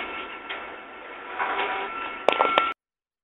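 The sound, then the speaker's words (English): An office photocopier running, giving a steady mechanical whirring drone that swells slightly midway. A few sharp clicks and clunks come near the end before the machine cuts off abruptly into silence. “this is the photocopying machine in the office”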